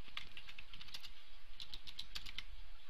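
Rapid typing on a computer keyboard while code is entered: many crisp, light key clicks in an uneven, quick rhythm, with no voices.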